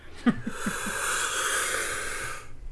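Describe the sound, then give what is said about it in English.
A deep diaphragmatic breath in: a few short snuffly pulses, then a long, steady, airy hiss of inhalation lasting about two seconds before it stops. “Let's see if we can do one breath. I was at my voice trainer today, so let's go. Diaphragmatic breathe in, baby.”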